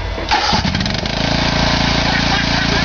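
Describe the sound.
A ride-on lawn mower engine cranks and catches, then settles into a loud, steady running drone with a low, even throb.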